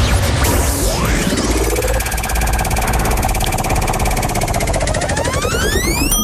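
Prize wheel spinning in a radio game: a continuous, loud mechanical rattle of rapid ratchet-like clicking, layered with sweeping, whooshing tones that rise and fall throughout.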